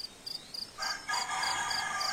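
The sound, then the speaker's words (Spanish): A rooster crows faintly, its drawn-out call starting partway through and continuing to the end. Quick, evenly spaced high insect chirps repeat throughout. “ya está el gallo, ya está cantando”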